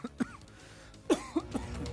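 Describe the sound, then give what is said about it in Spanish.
Fairly quiet coughing from one person: a short cough early on, then a quick cluster of three dry coughs with throat noise between them. “disculpe usted, todavía seguimos con la tos”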